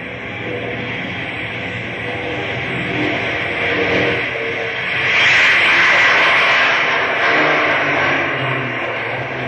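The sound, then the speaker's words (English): An airplane engine throttles up on the runway for takeoff, a steady droning roar that swells louder midway and then holds at a strong, even level. “I've got runway clearance. Okay, boy. Give her the gas.”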